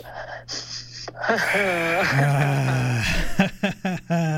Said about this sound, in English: Last one, deep breath.